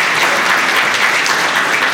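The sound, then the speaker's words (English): An audience applauds during a church sermon, loud, dense and continuous clapping that holds steady without pauses from start to finish. “So give yourselves a round of applause one more time just because you guys have done a great job.”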